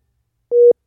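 Busy tone on a dropped international phone call: one short, steady electronic beep of a single pitch, followed by silence and then the start of the next beep.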